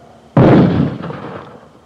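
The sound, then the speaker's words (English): A mortar firing about 40 feet behind, one sudden loud boom with a deep rumbling tail that fades over roughly a second and a half. “that was mortars that just fired maybe 40 feet in back of me”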